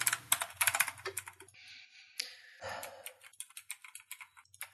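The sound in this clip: Rapid typing and clicking on a computer keyboard: many quick, crisp keystrokes in uneven bursts, with a brief lull partway through and no voices.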